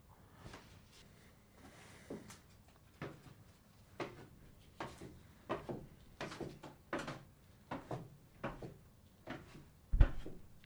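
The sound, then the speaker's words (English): A wooden wardrobe door being shut: a series of faint bumps and rattles at uneven intervals, ending in a sharper, louder thud. “Welcome to my donjon. It's very foolish to lock oneself into a wardrobe.”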